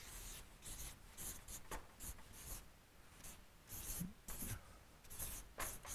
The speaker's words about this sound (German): Und das Letzte passt nicht mehr hin, aber das schreiben wir auf die nächste Seite.